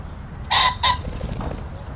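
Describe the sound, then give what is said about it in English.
Pheasant calling near reedy lakeside places around Belvedere Castle: two loud, harsh, hoarse notes in quick succession, standing out against a faint, steady background. “I pulled out my microphone, and I bagged that pheasant.”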